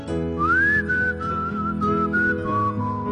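A person whistles through uneven teeth, giving a leaky, airy tone: a continuous tune that glides upward at the start, then holds a series of steady, clear notes at an even, fairly loud level.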